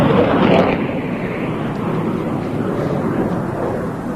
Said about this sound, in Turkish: F-16'lar beraberindeki kargo uçağıyla birlikte geçişini gerçekleştiriyor.